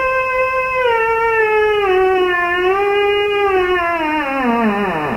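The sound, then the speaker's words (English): A theremin, an instrument played without being touched, holds a sustained, wavering tone with gentle vibrato. The pitch drifts slightly, then slides steadily downward near the end, with no other sound. “So that instrument is called a theremin and it's named for the Russian scientist who invented it. It's been used in soundtracks, pop music, and it's an instrument that is played without ever actually touching it.”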